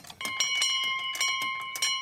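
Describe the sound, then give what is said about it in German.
Church bell ringing in a Bavarian village for war dead, with many rapid strikes over a steady, sustained metallic ringing tone that carries through the whole stretch. “Und wie oft muss die Glocke erklingen”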